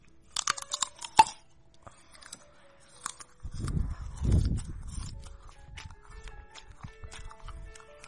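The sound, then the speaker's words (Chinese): Crunchy chewing of fresh, sweet winter jujubes: a few sharp, crisp bites at the start, then steady, muffled low chewing that carries on to the end. “今天买了好多水果，买了枣子，买了冬枣，很好吃，很甜，去给你们听”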